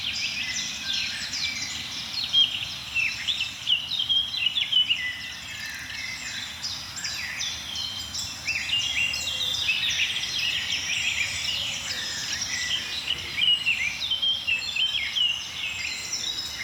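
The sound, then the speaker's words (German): Blackcap warbler song amid a dense bird chorus. Many quick, bright warbling phrases repeat throughout over a steady low background rumble. “Die ein oder andere Grasmücke ist auch dabei. Mönchsgrasmücken vor allem jetzt.”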